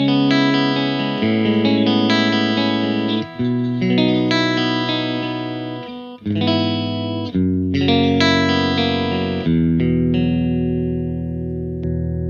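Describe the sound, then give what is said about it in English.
Electric guitar with its coil tap engaged, giving a clean, bright, sparkly tone with a scooped-out low end. It plays a run of ringing, sustained chords that change several times, alone with no talk. “If you wanted to do the coil tap, it'll give that more sparkly sound.”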